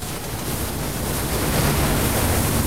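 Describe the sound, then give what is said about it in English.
An enormous ocean wave crashes onto the shore in white foam where surfers paddle, heard as a dense, steady roar of rushing water that holds at an even, loud level throughout. “Behind them, an enormous wave thunders towards John. It swirls over him, white foam crashing onto the shore.”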